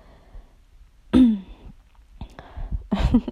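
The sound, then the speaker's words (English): A person clears their throat with one loud, rough rasp, then makes a few quieter, gruff follow-up clearing sounds. “as I clear my throat”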